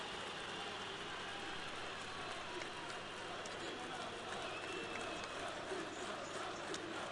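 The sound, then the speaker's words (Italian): Napoli football fans chant in a stadium, a dense, steady crowd roar that fills the whole stretch without clear breaks. “Questi sono tifosi del Napoli, credo che stiano cantando Jorginho, no? Non sicuramente quelli della Roma.”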